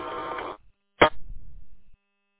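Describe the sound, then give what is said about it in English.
A phone rings: a buzzy, harmonic-rich tone lasts about half a second, then a short sharp burst follows, trailing into low rumbling noise before it cuts off. “Oh, I got it. Gotta find my phone here. Hang on a minute.”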